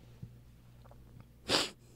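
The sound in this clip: A single sharp sniff through a blocked, stuffy nose, a short hissy nasal burst standing out against near silence, preceded by a couple of faint soft clicks.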